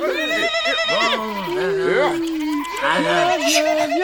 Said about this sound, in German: Die Ziegen, hä? Die treiben wir später zusammen.